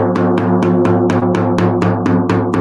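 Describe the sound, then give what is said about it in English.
A resonant drum beats a shamanic rhythm, with many evenly spaced strikes at a steady, fairly quick pulse. Each hit rings with a sustained tone and fades before the next. “So shamanic rhythm sounds like this.”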